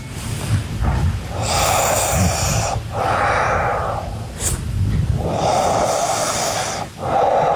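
A sleeping person breathes and snores in slow, steady cycles: a few long, rasping breaths alternate with lower rumbling snores, with no talk.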